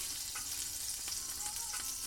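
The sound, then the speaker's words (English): Butter sizzling in a hot pan on the stove, a faint, steady frying hiss with a few small crackles and pops throughout. “Oh, it's sizzling. It shouldn't be sizzling. I don't think so. Maybe I'll just turn the pan off completely because it's like hot now.”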